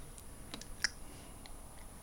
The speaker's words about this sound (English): I'll just type it into here.